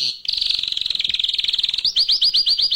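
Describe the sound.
A caged bird chirps loudly: first a rapid buzzing trill, then a quick run of sharp rising chirps in an even rhythm, with no voices.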